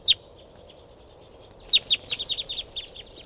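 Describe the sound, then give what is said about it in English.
Calls of a mixed bird flock of call types 2, 4 and 5 with white-winged birds, taking off together: a single sharp chirp first, then a quick run of many high, clipped calls after a pause. “This is the calls of the flock. They're all taking off now.”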